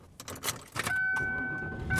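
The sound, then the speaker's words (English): A car is driving home on the road, heard as a faint low rumble with a few clicks early on, then a steady thin whine that holds to the end. “And I am driving home.”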